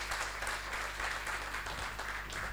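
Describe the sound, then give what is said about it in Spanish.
Audience applause at a conference talk: steady, faint clapping that continues without a break. “Pido un aplauso.”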